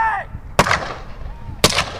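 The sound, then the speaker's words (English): Two sharp gunshots from blank ammunition, fired into the air by a police officer at a dock in blowing snow. Each is a loud crack with a brief decaying tail, about a second apart. “Officer Kyle Haskins strode toward the dock and began firing blank ammunition into the air.”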